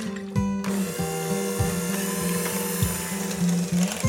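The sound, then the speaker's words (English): An electric mixer beats a sour cream, half-and-half, softened butter, salt and pepper filling until fluffy, giving a steady mechanical whir with a repeating dip in pitch every half second or so. “I start with some tangy sour cream, obviously, 1/2 and 1/2, some softened butter, and a little salt and pepper. And I'll beat this until it's fluffy.”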